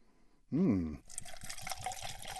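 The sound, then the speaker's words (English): Bulleit bourbon is poured into glasses, a faint gurgling, glugging stream of liquid with quick irregular pulses that runs steadily for over a second. “Should we open this up? I think we should. All right. A little Bullet Bourbon shouldn't wait.”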